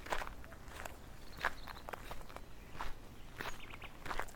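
Footsteps walking along a path toward a nearby stream: soft, quiet steps at an unhurried, slightly uneven pace. Several scuffs follow one another with no talk.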